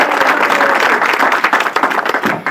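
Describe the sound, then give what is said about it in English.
An audience gives dense, continuous applause for a guest on the phone. The many hand claps are loud and steady throughout. “So we're going to give our friend on the phone from Ira applause, if we will.”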